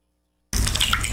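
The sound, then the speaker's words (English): Water coming through a leaking flat roof starts abruptly after a silent moment, then runs as a steady, loud rushing spatter that holds at an even level until the end. “Hear that? That's the sound of a flat roof someone didn't call MJ Dawson to fix.”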